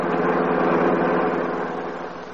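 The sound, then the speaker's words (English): A car engine hums steadily as the car is driven, a low, even drone that eases slightly toward the end. “Now, in another car, Max is driving Paul Cromwell to an appointment with his attorney.”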